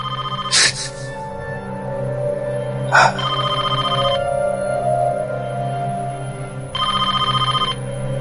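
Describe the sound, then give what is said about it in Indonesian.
A telephone rings inside a university department building at night: two shrill trilling bursts, each about a second long, over a low steady hum, with a couple of sharp knocks earlier. “keheningan kami terpecah oleh suara dering telepon yang terdengar dari dalam gedung jurusanku.”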